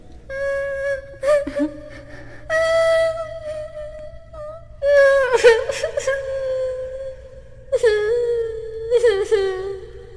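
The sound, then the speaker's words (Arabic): A voice crying alone, with wavering whimpers and drawn-out sobbing wails that rise and fall in several bursts over a steady low hum. “كنت أسمع ضجة وأصوات صاخبة وصوت الكرة، ما لي أسمع الآن صوت بكاء؟ من ذا الذي يبكي تحت ظلالي؟”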